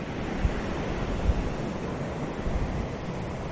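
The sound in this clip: Waves breaking on a pebble beach make a soft, steady rush of surf with faint swells and no voices.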